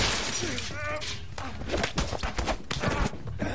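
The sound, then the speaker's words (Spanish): Glass shatters and heavy thuds ring out as a man is shoved against a window during a fistfight in a 2014 action thriller; a burst of sharp crashes and several hard impacts follow, with a voice speaking over them. “lo empuja contra la ventana.”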